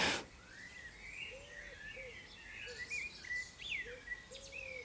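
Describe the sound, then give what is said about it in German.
Small birds singing in a garden, with many high chirps, trills and warbling phrases overlapping throughout, faint over a soft steady background hiss. “Und weil es so schön passt, die Vöglein begleiten deine Reise. Ja, hier im Garten ist einiges los, wie du hörst.”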